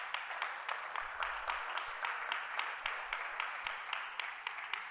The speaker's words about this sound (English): Don't clap for too long, I don't have too much time.